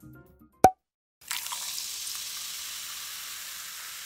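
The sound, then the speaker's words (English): Carbonated soda is poured: a single sharp pop, then after a short pause a steady fizzing hiss that starts strong and slowly fades. “Be honest, that sound you just heard made you want a soda,”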